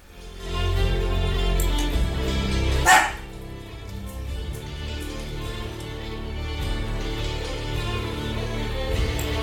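A female dog barks, one loud burst standing out early over a continuous droning, tonal background.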